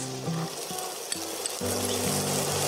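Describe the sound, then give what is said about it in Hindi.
Onion is dropped into a pan with ginger and cumin and sizzles, giving a continuous crackling hiss that stays fairly even throughout. “अदरक और जीरा को अच्छे से mix कर लेते हैं और फिर डालेंगे थोड़ा सा प्याज”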